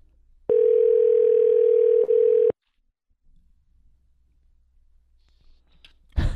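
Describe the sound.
A telephone call rings through: a loud, steady tone lasts about two seconds with a brief dip partway, then comes near silence and a sharp click at the end.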